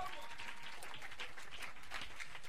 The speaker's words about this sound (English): Please clap your hands.